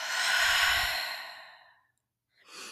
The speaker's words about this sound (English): In through the nose. Out through the mouth.